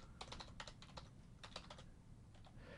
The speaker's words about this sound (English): So what we will do is let's target our multi-one policy. And I'll just type this out.